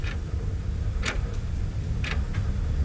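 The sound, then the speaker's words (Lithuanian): Clock ticking in faint, sharp clicks that come in two tick-tock pairs about a second apart, over a low, steady background hum. “Net laikrodis, kad girdis.”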